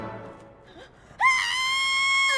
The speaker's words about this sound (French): J'avais oublié que ça crie toujours à ce moment-là.